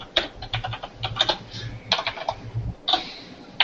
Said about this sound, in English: The red switches aren't as loud as the blue switches. The blue switches are louder.